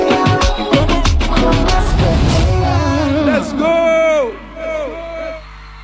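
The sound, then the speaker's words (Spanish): A concert crowd cheers and whoops for a singer early in his show. The dense roar is loud and continuous, a singing voice rises over it, and the noise drops away near the end. “está el público muy prendido con él porque realmente le gusta.”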